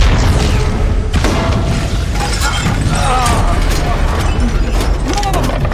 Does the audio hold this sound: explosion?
yes